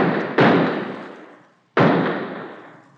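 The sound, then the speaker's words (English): A handgun fired into the air: two sharp, loud bangs about a second and a half apart, each trailing off in a long decaying echo, with no voices. “Yeah, but first empty the gun in the air. There are 3 bullets still in it.”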